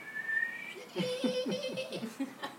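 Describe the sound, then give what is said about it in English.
A person whistles to imitate a boiling tea kettle, a thin high tone followed by a lower, steadier held tone. It is faint and mixed with soft giggling and laughter. “you can hear her brain making the sound when you leave a teapot on. And, it's, and the tea is ready.”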